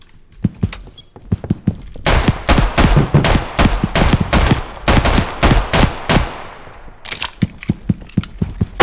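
9mm gunfire in a video game: many loud, sharp shots fired in rapid bursts, with a brief pause near the end before more scattered shots follow.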